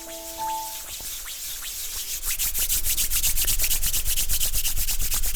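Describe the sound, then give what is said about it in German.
Hands rub briskly together in quick, regular strokes that start softly and grow louder and fuller after about two seconds. “Genau, und dann die Hände aneinander reiben.”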